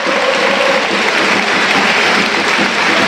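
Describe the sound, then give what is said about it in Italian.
Stadium crowd at Parma's Tardini applauding during a football match as Bernabé is substituted off: a loud, unbroken roar of clapping that holds steady from start to finish. “Fuori Bernabé, tra gli applausi del Tardini.”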